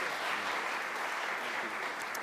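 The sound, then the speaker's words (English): Audience applause welcomes two members of Congress onto a stage. Dense, steady clapping holds at an even level throughout, with no pauses. “I think they're worth a round of applause just on their own.”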